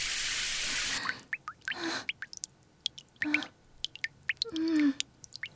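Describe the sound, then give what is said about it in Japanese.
Water is splashed onto a person in a hissing rush lasting about a second, followed by quieter drips, small splashes and a few brief voiced sounds. “分かったから。もう水かけないで。ちゃんとお湯で洗ってよ。”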